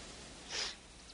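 A single short sniff as someone inhales a powder, a faint, breathy rush that swells briefly midway and fades, heard alone over a low background hiss.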